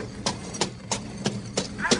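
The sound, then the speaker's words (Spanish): Horse hooves clop at a trot as a gaucho rides in on horseback. Six sharp, evenly spaced beats keep a brisk, steady rhythm. “El gaucho Jacinto venía cabalgando, dejó su caballo y esperó a que apareciera su sobrina.”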